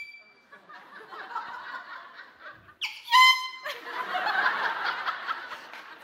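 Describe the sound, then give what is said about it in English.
A voice imitates a loud air horn blasting at golfers mid-backswing in one short, brassy burst, with chuckling and laughter before and after it. “he would legitimately pull out an air horn. And in everybody's backswing, he would be like,”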